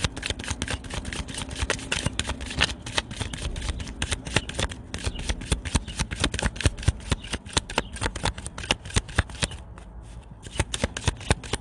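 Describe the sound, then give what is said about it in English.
Tarot cards being shuffled: many rapid, crisp riffling clicks and flutters run without pause throughout, moderately loud and with no voices. “Let's get one more shuffle.”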